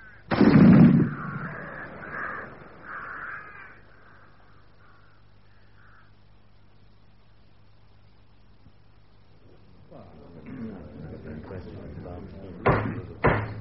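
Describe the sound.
A rifle volley is fired on command at a military execution. One loud, sharp blast opens and quickly fades, followed by quieter sounds and a couple of sharp knocks near the end.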